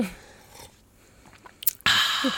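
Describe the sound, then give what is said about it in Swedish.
Coffee being slurped from a cup: quiet, faint noises at first, then a short burst and a loud, hissing slurp that continues to the end. “Jag sörplar lite, men det får man ju egentligen inte göra.”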